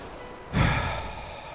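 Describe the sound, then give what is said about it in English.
A single long exhale during a guided breathing exercise in a worship setting: a soft, breathy whoosh that begins suddenly and holds steady for about a second before fading gently. No talking is heard. “So let's exhale.”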